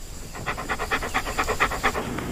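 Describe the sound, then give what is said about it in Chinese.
An ailing dog pants in a quick, even rhythm of about a dozen breathy bursts. The panting starts after a brief quiet moment and fades at the end, with no voices over it. “一哥来，一哥， 好狗。”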